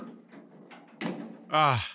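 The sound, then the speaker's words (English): A door is unlocked with a brief sharp clunk amid faint low sounds, followed by a louder, falling tonal sound. “The door is unlocked and my handcuffs just opened.”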